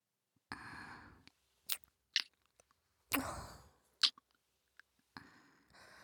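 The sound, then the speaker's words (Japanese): Soft, wet kisses and lip smacks delivered to both ears in a roleplay, many brief mouth sounds separated by quiet breathy gaps, faint and without talk. “私たちから両耳に口づけいたします。”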